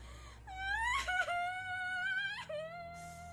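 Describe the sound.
A girl bursting into tears, crying in a loud, high, wavering wail whose pitch climbs, breaks with brief catches of breath, then resumes in drawn-out sobbing cries.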